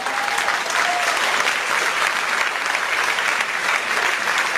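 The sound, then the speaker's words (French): An audience applauds at a French-language worship service, giving sustained, dense clapping at an even level from start to finish. “Alléluia, vous pouvez acclamer le Seigneur.”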